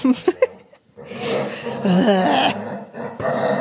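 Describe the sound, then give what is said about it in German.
A bored pet dog vocalising: a few short, sharp bursts at the start, then a longer, fairly loud, wavering growl-like whine that continues with uneven intensity to the end. “das ist mein Hund, falls man ihn hört, dem ist langweilig”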